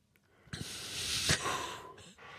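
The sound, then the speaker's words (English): A single deep breath: a soft, airy hiss that swells over about a second, peaks briefly, then tails off quietly, heard alone. “No fooling. Deep breath. Nice and easy.”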